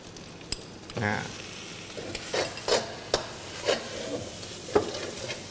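Dried shrimp, mildly salty and naturally processed, is tossed into a pan and stirred, a soft hissing sizzle broken by several short scraping strokes of the spatula.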